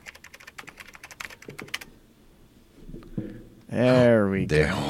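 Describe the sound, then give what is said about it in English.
Typing on a computer keyboard: a quick, irregular run of clicks for about two seconds, then a pause before a voice speaks. “Here, just type it in.”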